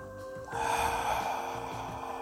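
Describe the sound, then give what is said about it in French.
One long, soft breath taken as a deep breath, a faint, airy rush of air that starts abruptly and holds steady to the end, with no talking. “je vous laisse vraiment prendre le temps de prendre trois profondes respirations.”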